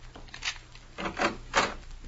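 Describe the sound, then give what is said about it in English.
A key works in a lock and a door is opened: three soft, rasping scrapes and rattles at a steady spacing, fairly quiet and with no talk over them. “See if you can open the door. My hands are shaking, so I can't unlock it.”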